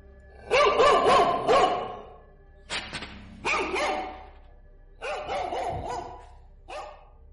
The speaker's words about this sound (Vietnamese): Đúng lúc đó không biết vì sao, những tiếng chó từ một nhà trong ngõ đột nhiên sủa inh ỏi.